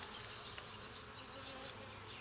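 Honeybees buzz at an open hive in a steady, faint, unbroken drone with no voices over it.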